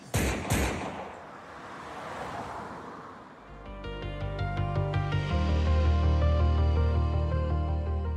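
Gunshot sound effects in a radio drama: two sharp, loud blasts in quick succession, followed by a rumbling tail and then music swelling in and holding steady.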